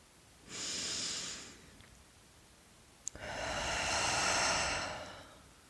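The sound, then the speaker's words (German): Deep breath taken during a calm self-reflection exercise: a short, airy breath, then a pause and a tiny click, then a longer, fuller breath that swells and fades. No one speaks. “Halte nochmal inne und nimm einen tiefen Atemzug.”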